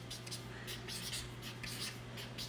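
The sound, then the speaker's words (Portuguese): Handwriting strokes as someone writes notes down the lower part of a page during an explanation: faint, scratchy rubbing bursts in a loose rhythm over a low steady hum. “Vou escrever aqui embaixo, ó, aquele jogo em que você fala e eu escrevo.”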